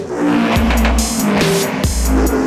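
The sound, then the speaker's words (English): Glitchy DJ spin-back effect in a nu-breaks mix: two quick downward sweeps cut through loud, continuous music, with a steady beat underneath. “glitchy spin back.”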